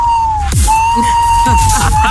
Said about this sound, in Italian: Sembrava più un sonar. La sirena. Sì, i sonar dei sommergibili